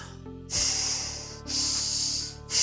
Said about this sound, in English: you probably guess what I'm doing. Breathing in and out